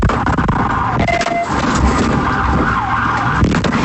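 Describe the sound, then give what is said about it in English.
Wailing siren of a police vehicle during a pursuit in Fernandina Beach. It is loud and continuous, with vehicle noise underneath. “That sound from a vehicle pursuit in Fernandina Beach.”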